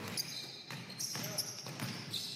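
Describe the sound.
A basketball is dribbled during a game, giving a few faint, fairly evenly spaced thuds of the ball hitting the court.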